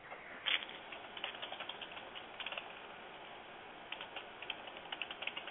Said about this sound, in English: if we can hear him typing, clearly